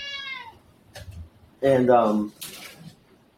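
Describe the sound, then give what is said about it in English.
A talkative pet cat gives a short meow at the start. Quieter sounds and a person's speech follow. “And sorry about my cat. He's a little talkative one.”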